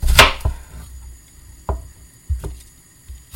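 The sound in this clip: Knife chopping an onion into pieces, a few sharp, irregularly spaced chops with quiet pauses between them, the first one the loudest.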